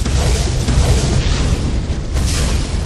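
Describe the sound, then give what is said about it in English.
A series of explosions rips apart a dirt road in a forest, heard as loud, continuous, deep booming and rumbling. The blasts blur into one sustained roar rather than separate bursts. “a fast series of strident explosions ripped apart the dirt road”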